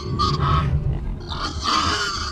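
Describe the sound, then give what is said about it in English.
Pigs grunting and snorting in two rough, throaty bursts, low and fairly loud, with no talk over them. “please herd the pigs and geese into Cliff and Kittle's room for the night.”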